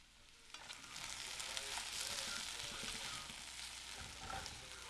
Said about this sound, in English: The next morning, I'm woken up by the most deliciously aromatic smells of bacon, eggs, and more. Angelina has whipped up a feast